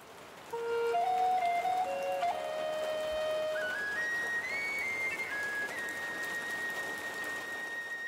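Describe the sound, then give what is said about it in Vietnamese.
Heavy rain falls as a steady, dense hiss throughout, with a thin, whistle-like tonal melody running above it and stepping between held pitches. “Trời bắt đầu mưa lớn hơn.”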